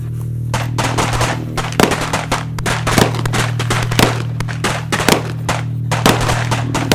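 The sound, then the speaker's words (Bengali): Heavy gunfire: many sharp, loud shots in rapid, irregular clusters, some close together like automatic fire, over a steady low hum with no voices. “মাখন মাখন গুলি খেয়ে পুকুরে পড়ে গেছে”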